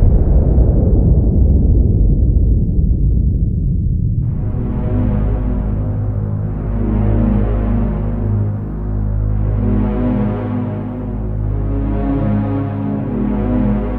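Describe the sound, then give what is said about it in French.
A bomb dropped from a plane over Hiroshima explodes: a loud, broad rumble fades over about four seconds, then gives way to a low, throbbing drone that swells and ebbs slowly through to the end. “La lumière verte, j'appuie sur le bouton. Voilà, je viens de jeter une bombe sur Hiroshima.”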